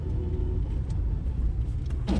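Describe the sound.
Car driving with its engine running: a low, steady rumble fills the whole clip, with a few faint clicks and a brief brighter swish near the end.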